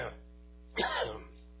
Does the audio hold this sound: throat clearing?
yes